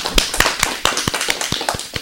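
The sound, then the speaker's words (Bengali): Audience clapping for a child singer comes as many sharp, distinct hand claps at a quick, steady beat, loud and crisp with short gaps between them. “আমাদের ছোট্ট বন্ধুর জন্য এবারে জোরে একটা করতালি হয়ে যাক।”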